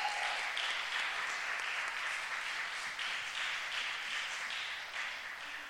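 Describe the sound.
Applause from a church audience welcoming a guest speaker to the sanctuary. The clapping is dense and steady throughout and eases off slightly near the end.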